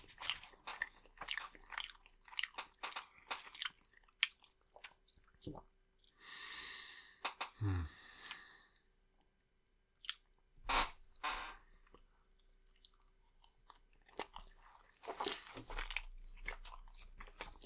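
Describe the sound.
Someone biting and chewing food at a Mexican restaurant in Polanco: scattered crisp crunches and sharp mouth clicks come in irregular bursts, separated by short quiet gaps and a soft breathy sound midway.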